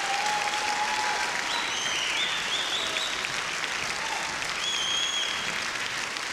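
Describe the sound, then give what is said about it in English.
An audience applauds a band called back on stage for one more song, a dense, steady wash of clapping that holds evenly throughout, with a few whistles cutting through. “One more, fellas, come on back. Another nice hand for the Johnson Mountain Boys.”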